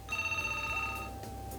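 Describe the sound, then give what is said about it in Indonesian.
A telephone rings on a radio call-in line: one faint ring of about a second with a steady, bright, buzzing tone, then low hum continues alone. “Ya, masih menanti dering telepon di 3293 kali untuk Anda yang ingin berpartisipasi, pendengar setia Pro 1 dimanapun berada dalam program siar Halo RRI.”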